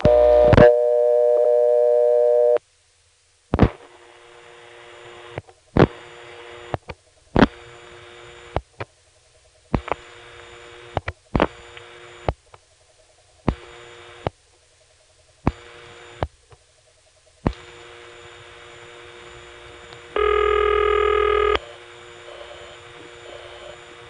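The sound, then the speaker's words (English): Telephone trunk supervision test tones on the Grotto line via Harrisonburg. A steady multi-tone hum opens, then a long series of sharp clicks with gaps of near silence between them. A brighter multi-tone burst sounds near the end. “I'm including these just because they really sound nice. There is vibrational beauty in these, and it's a type of trunk system we won't hear anywhere else, I don't think, not in the tape collection. In any event, here's the Grotto's supervision test via Harrisonburg.”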